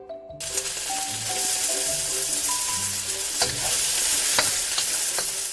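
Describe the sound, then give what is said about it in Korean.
Bacon, cabbage and minced garlic stir-frying in an oiled pan, with a steady, bright sizzle broken by a few scraping stirs. “팬에 오일을 두르고 베이컨을 볶다가 양배추를 넣어서 같이 볶아. 그리고 다진 마늘을 넣어.”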